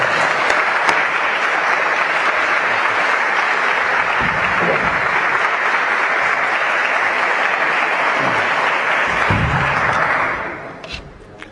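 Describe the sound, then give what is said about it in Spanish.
A conference audience applauds in dense, steady clapping that holds for about ten seconds, then quickly fades out. “Yo os pido para él un fortísimo aplauso.”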